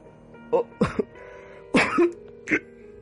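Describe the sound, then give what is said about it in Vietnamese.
Dry coughing from a parched throat: a few short, hacking coughs in uneven bursts with brief pauses between them. “Tôi bắt đầu cảm thấy cổ họng của mình khô rang lên, liền dốc sức mà ho khan.”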